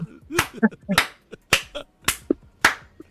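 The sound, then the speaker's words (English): Sharp hand claps, five crisp smacks at a fairly steady pace, with a man's voice speaking briefly between them. “just got to clap.”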